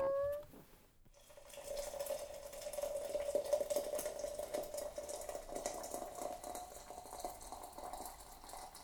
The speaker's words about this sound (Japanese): 一緒に温めたポットに茶葉を入れて、沸かしたお湯を注ぐと